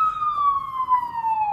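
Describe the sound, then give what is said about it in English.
An ambulance siren sounds on a New York street as a single loud wailing tone with bright harmonics. Its pitch slides gradually lower as the vehicle passes. “I think that's the ambulance. Yeah, it's the ambulance.”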